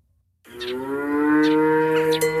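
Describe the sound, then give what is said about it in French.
A dairy cow moos on a family dairy farm that keeps about fifty cows: one long, deep, sustained moo that starts after a short silence and holds steady and loud to the end. “En arrivant à la ferme de Manne, à Saint-Just-de-Clay, une frêle silhouette se cache au beau milieu des 50 vaches laitières de l'exploitation familiale”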